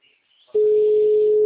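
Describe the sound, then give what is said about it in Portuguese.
Telephone ringing tone on a call to a client: after half a second of near silence, a single steady, loud, mid-pitched tone starts abruptly and holds unbroken to the end. “Peraí, deixa eu só ver se essa cliente vai atender ou não.”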